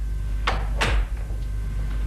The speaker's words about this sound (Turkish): Kapıyı kapat